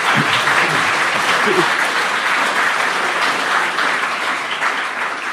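Warm, steady applause from an audience welcoming two former independent members of parliament, a dense wash of clapping that holds its strength and fades slightly at the end.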